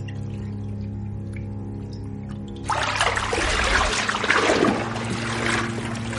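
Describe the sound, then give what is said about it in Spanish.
Water churns and splashes as a person fully submerges in a bathtub, a broad rushing swell that starts partway through and continues to the end over a steady low tonal drone. “Se sumerge en el agua por completo.”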